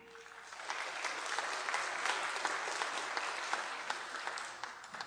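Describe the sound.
Audience applause welcoming a speaker at a church anniversary service: steady, sustained clapping for about five seconds, fairly faint and even, with no voices over it.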